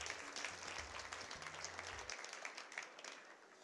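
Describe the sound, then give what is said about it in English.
An audience at a travel writers festival in Olympia claps to welcome a speaker. The applause is faint but steady, a continuous patter that thins slightly toward the end. “Put your hands together and give a very, very warm welcome to Mr. Rob Faulkon, everybody.”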